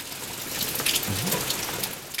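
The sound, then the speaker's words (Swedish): Rain falls during a midsummer shower, a soft, continuous hiss of drops with a few slightly louder spatters. The whole stretch stays fairly quiet and even. “Nu regnar det!”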